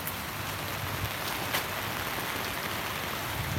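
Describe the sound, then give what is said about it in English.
Steady rain falls outdoors at a garden show in Cardiff, a dense continuous hiss with occasional sharper drop taps and a soft low rumble, no voices. “Cardiff weather is Cardiff weather. It's raining.”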